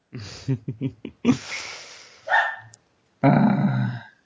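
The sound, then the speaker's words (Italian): A dog barks in a run of short, sharp yaps, then gives longer, louder barks with a rough, growling edge, separated by brief gaps. “Vedo che hai messo anche gli effetti sonori dei cani. Non sono io, temo che sia tu.”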